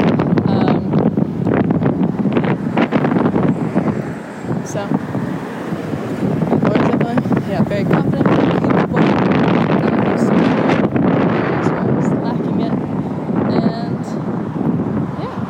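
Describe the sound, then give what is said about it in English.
Wind buffets a microphone outdoors on a street, a steady, loud, rumbling roar that gusts and blusters for the whole stretch with no clear pause. “It's also windy, so sorry for the noise.”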